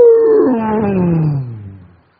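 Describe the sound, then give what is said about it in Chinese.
A tiger's roar used as a sound effect in a story: one loud, drawn-out tonal cry of about two seconds that slides steadily downward in pitch and then cuts off. “正在疑惑之际，突然传来惊人的咆哮声音，”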